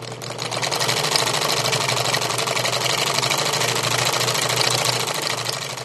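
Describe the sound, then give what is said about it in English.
Old sewing machines, made around World War II, run inside a standalone single-story commercial building in Phoenix, giving a continuous fast rhythmic whir and clatter over a low hum, loud and unbroken. “sewing machines that were probably made around the time of World War II were.”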